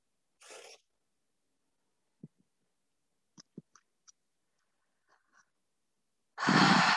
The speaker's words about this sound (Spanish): Inhala hondo.